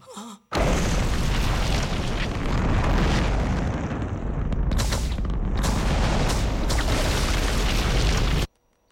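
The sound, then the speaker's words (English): A spaceship blasting off and soaring into the sky: a loud, continuous, rumbling roar that holds steady for about eight seconds, then cuts off abruptly. “The spaceship soars overhead and into the sky. It leaves a rolling wave of dust in its wake”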